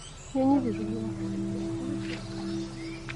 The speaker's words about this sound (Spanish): Papá está mirando a los pájaros. Mira, están cantando.